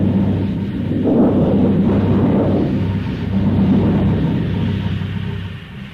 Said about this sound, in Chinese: 第三幕，风雷闪电刚过，接着下了一场暴雨。